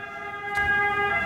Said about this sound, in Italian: Stavo aspettando che passasse l'ambulanza.